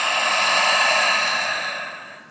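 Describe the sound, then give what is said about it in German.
Clearing breath during a breathwork exercise, exhaled through the open mouth: one steady, breathy rush of air lasting about two seconds that fades out at the end. “Und dann öffne deinen Mund, clearing breath, atme aus.”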